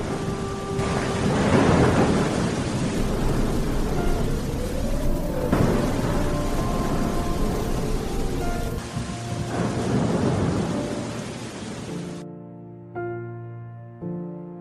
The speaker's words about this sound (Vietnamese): tiếng mưa than khóc và từng trận sấm rền đã làm đắm chìm tất cả, chẳng còn lại gì.